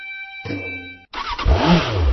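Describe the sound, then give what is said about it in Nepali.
A Bangladesh-made Runner motorcycle engine revs in a short, loud burst after a brief gap, preceded by a steady tonal hum. “आइपुग्यो बङ्गलादेशमा निर्मित runner मोटरसाइकलहरू Nepali बजारमा आइपुग्यो।”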